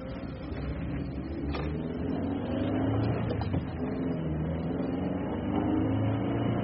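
Car engine droning steadily on a road to Basel, a constant low, muffled hum that stays at about the same loudness throughout with no talk.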